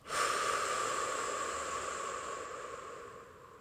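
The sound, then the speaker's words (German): A single deep, airy breath during a guided relaxation exercise. It is soft and hissy, swells quickly, then fades slowly over about three and a half seconds with no voice over it. “Noch einmal tief ein und vollständig aus.”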